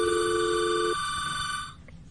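A telephone rings with an incoming call: a steady electronic ringing tone that holds, then cuts off near the end, leaving low background hiss.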